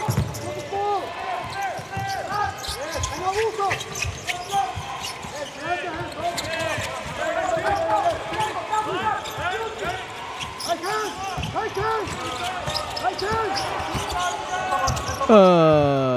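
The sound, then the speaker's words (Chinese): Basketball dribbled on a court during a game: rapid, repeated bounces of the ball under steady crowd noise and voices. “运球的时间还是很长的”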